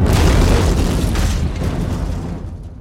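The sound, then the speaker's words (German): A loud bomb explosion shakes a house, a heavy, broad booming roar that hits at full strength and slowly rumbles away over a few seconds. “Plötzlich erschütterte eine laute Explosion unser Haus.”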